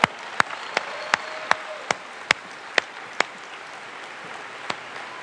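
Applause from an audience after a sung performance: a steady wash of clapping with about ten sharp, louder claps popping out irregularly, then thinning toward the end.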